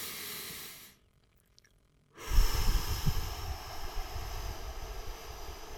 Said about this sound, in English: Keep your fists and take three deep breaths.